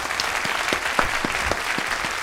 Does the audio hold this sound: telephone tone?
no